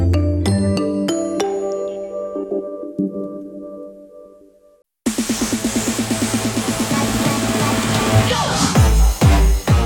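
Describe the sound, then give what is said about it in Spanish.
Sports-segment music jingle on a Spanish-language radio station. Bright, ringing struck notes fade to near silence, then fuller rhythmic music with a steady pulsing beat starts abruptly and plays to the end. “Ya suena la música de los deportes”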